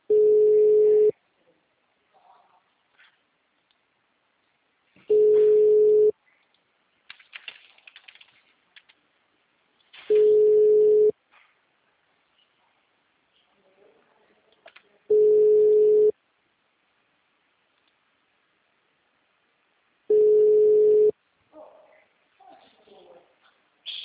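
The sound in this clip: A phone ringback tone sounds while calling someone: five evenly spaced beeps, each about a second long at one steady mid pitch, arrive roughly every five seconds. Faint clicks and rustles fill the gaps.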